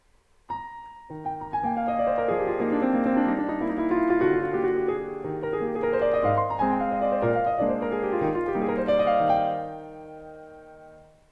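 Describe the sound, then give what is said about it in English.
Piano playing a Schubert impromptu in E-flat in a typical, flowing manner, with rapid rippling runs of clear, distinct notes rising and falling over sustained bass, moderately soft and alone, fading at the end. “if I were to play for you a Schubert impromptu, the E-flat impromptu, and play it in a, I would hate to say normal manner, but a typical manner that you might hear this piece, it'll sound something like this.”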